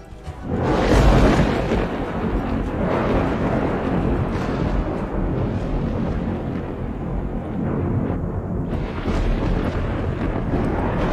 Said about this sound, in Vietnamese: Âm thanh ầm ầm như động đất, hòa lẫn với tiếng sấm, càng tăng thêm sự tức giận của thiên lôi.